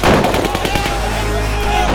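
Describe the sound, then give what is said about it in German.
Machine-gun volleys and heavy gunfire erupt in a shootout between rival agents and police. Rapid, loud bursts of shots overlap into a dense, continuous barrage that holds steady from start to end. “Doch noch ehe sie ihn erreichten, gingen plötzlich Maschinengewehrsalven los und eine hohe Schießerei setzte ein.”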